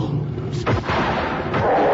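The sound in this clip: Booming gunshot blasts are fired at a creature whose eyes seem to be on fire. The sharp, deep reports cut through a low background rumble.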